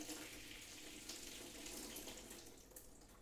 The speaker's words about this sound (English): these are the olives. They have a little liquid. I'm going to toss the liquid out. So to do that, I'm just gonna open it a little bit so that they don't all come out.